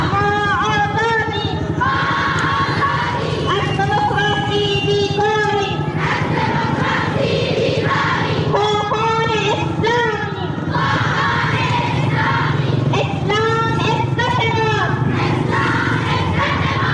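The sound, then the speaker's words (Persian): Dozens of women chant at a rally in support of the Taliban in Zaranj, Nimroz province. High voices shout slogans in unison in short repeated bursts, loud and continuous over a constant crowd murmur. “این صدای ده ها زن در شهر زرنج مرکز ولایت نیمروز به حمایت از طالبان است که هفته گذشته را پیمایی داشتند.”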